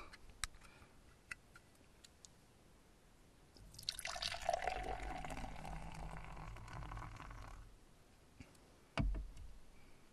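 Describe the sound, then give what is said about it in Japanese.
Beer is poured into a glass. A few soft ticks come first, then a fizzing, gurgling pour that lasts about four seconds and trails off. A single sharp knock follows near the end. “入ってんのかなとねちょっと半分ぐらいまで注いでみました”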